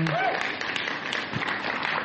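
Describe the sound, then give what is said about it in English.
Audience applause breaks out at a church gathering as a couple is welcomed up front: dense, steady clapping that runs throughout, with a brief voice audible at the very start. “You can give them a round of applause.”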